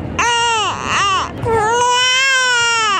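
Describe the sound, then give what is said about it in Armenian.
A baby crying: two short wailing bursts, then a longer, sustained loud cry with a strained, high, tonal quality. “Եզրափակենք հենց բալիկի ձայնով, որը թող լինի յուրօրինակ ազդանշան խաղաղության եւ անկախության։”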